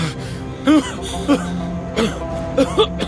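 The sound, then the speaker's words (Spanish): Convulsive coughing from a young man who is coughing up blood: about five short, strained, voiced bursts with arching pitch, like hacking coughs and gasps, over a steady low background. “Es una tos convulsiva.”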